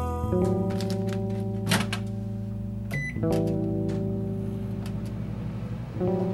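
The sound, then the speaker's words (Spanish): A microwave oven runs with a steady, loud electrical hum, and a few thunks occur along the way. Midway the hum briefly breaks as a short beep sounds, then it resumes. “Este microondas es muy rápido.”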